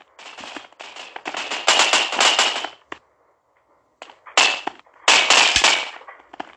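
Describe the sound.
Rapid bursts of automatic gunfire in a Roblox shooting game, loud and crackling. A long stretch of shots falls silent for about a second, then two more dense volleys follow.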